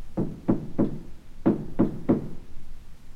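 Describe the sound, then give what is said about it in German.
Knocking on the door of a grandmother's house: six dull, low knocks in two evenly spaced sets of three, with no voices. “klopfte an die Türe”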